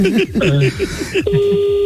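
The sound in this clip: A steady electronic beep from a caller's phone cuts in partway through and holds as a clear, even tone beneath people talking.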